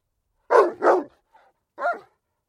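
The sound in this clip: An old dog lying by a roadside barks three times: two quick sharp barks close together, a faint short yip, then a final bark after a pause.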